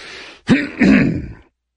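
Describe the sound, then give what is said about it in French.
Throat clearing: a short, sharp hack, then a longer, rumbling, raspy clearing, loud and alone, followed by silence. “Le grand Moravec éclaircit sa gorge virtuelle.”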